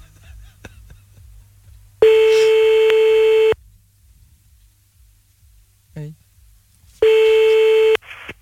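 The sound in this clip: A telephone line tone sounds while calling back: two long, steady electronic tones, the first about a second and a half and the second about a second. A quiet gap with faint low background noise separates them.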